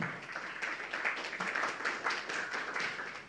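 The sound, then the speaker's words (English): Audience applause greeting guests at a welcome, a dense, steady patter of many hands clapping with no clear break for the full few seconds. “Let's give a big hand, big welcome here.”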